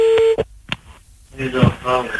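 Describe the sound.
A telephone call is dialed: a steady tone and a couple of short beeps, then a pause before a voice starts talking.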